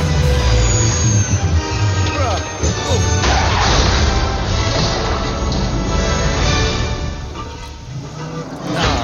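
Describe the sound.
A spaceship crashes in a Star Wars video game: a loud, continuous roaring rumble packed with smashing and banging impacts that holds for several seconds before easing slightly.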